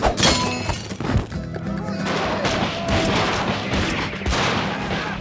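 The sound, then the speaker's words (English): Soldiers open fire inside a barracks room: a loud, dense volley of sharp shots and heavy thuds, with crashing noise continuing throughout. “Dodging the bullets at the last second, Zorro dove into the shadows”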